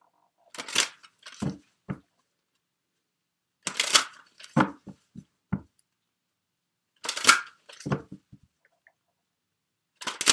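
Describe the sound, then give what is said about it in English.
Tarot cards being shuffled and drawn: four separate clusters of quick papery riffles and snaps, with quiet gaps between them. “Okay, let me get the cards drawn for you here.”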